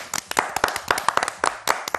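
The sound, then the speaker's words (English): An audience claps in a quick burst of many sharp, crisp hand claps, scattered rather than in unison, with no talking over them. “clap if you're against waiting for a few more minutes to start the fun and excitement today.”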